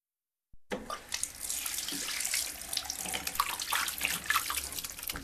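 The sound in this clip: A tap runs steadily into a sink while hands and face are washed, a bright, even hiss of flowing water that starts abruptly and keeps going with small splashes and no talking.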